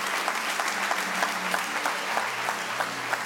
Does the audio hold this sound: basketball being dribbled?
no